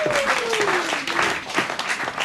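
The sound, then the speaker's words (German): Applause from an audience at a satirical comedy stage show greeting a guest introduced as an oil-company representative: steady, dense clapping throughout, with a falling whistle-like tone near the start. “Und deshalb begrüßen Sie heute mit uns mit einem tobenden Applaus als Vertreter von Shell, ExxonMobil, BP, Total, Oliver Ölzweig.”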